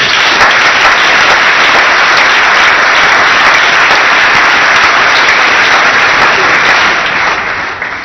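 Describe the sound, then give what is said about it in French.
Loud, dense applause from an audience at a church service, a continuous wash of clapping that holds steady for several seconds and tapers off near the end. “Tu peux acclamer le Seigneur.”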